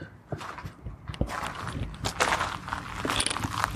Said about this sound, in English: I'm walking outside